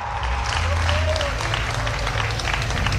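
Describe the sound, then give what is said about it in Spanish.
Applause from an audience during a Spanish-language sermon, a steady, even roar of clapping under a low hum, with a voice briefly heard over it. “Que le dé un fuerte aplauso a aquel que ha dicho: para morir nacimos.”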